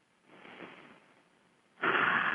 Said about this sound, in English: Take a couple of deep breaths to clear your energy. Another one.